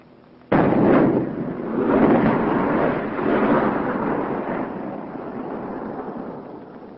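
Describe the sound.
A high-explosive artillery round fires and bursts in one sudden heavy boom, followed by a long, rolling rumble that swells in a few waves and slowly fades over several seconds, with no voices present.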